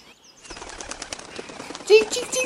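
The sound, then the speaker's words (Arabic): Wings of a large owl flap as it chases a young sparrow, a quick flutter of soft beating bursts that grows busier and ends with a sharper, louder flurry. “وإذا بطائر البوم الضخم يباغته، وأخذ يطارده عازما على ضربه لأنه تعدى على مناطقه.”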